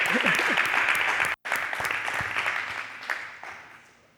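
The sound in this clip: An audience applauds during a sermon with steady, dense clapping that cuts out for a moment, then resumes and gradually fades toward the end.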